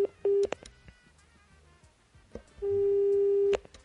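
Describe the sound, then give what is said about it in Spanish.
Telephone busy tone after a dropped call: brief steady electronic beeps, a pause filled with faint clicks and line noise, then one longer beep at the same pitch, with no talking. “Bueno, se cortó la llamada telefónica.”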